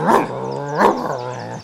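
A well-fed dog growls in a sustained, throaty rumble that swells into two louder bursts, one at the start and one midway, then trails off, with no other voices.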